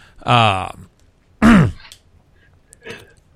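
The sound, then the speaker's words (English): A person clears their throat in three rough, rasping bursts: the first two are loud and throaty, the third is short and faint, with pauses between them. “sorry about that. I had something in my throat.”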